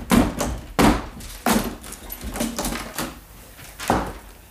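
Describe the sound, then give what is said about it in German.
Heavy thuds of a locked door being forced open, with several blunt, booming blows landing at uneven intervals. The blows are loud and full-bodied, and no one speaks. “wir müssen die Türe einschlagen. Ich übernehme die Verantwortung.”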